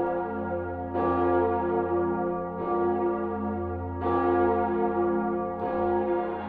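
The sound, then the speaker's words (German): The mighty great bell of a cathedral (Dom) opens an evening bell concert. Four deep, powerful strikes sound at a slow, even pace, and each long, rich hum overlaps the next without any voices. “um 20 Uhr säumten etwa 600 Hörer die Plätze rund um den Dom, als die mächtige Cantabona den Auftakt des Konzerts machte.”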